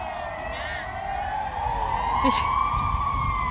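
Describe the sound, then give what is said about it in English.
A police siren wails on a Madrid city street, its tone sweeping upward and growing louder over a steady bed of traffic rumble. “It's actually ambulances, it's not police. No, it's police. Oh, no, it is police.”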